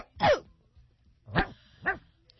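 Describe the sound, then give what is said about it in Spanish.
A dog that seems to be acting oddly gives three short, sharp barks, one alone and then two close together, each clear and fairly loud against near silence. “Ese perro estaba como raro, ¿verdad?”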